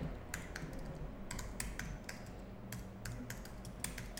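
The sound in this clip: Rapid bursts of typing on a computer keyboard, the key clicks coming in quick irregular runs with short pauses, faint and unaccompanied by talk.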